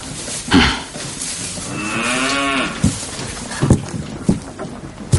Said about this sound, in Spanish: El granjero atiende a las reses en un establo.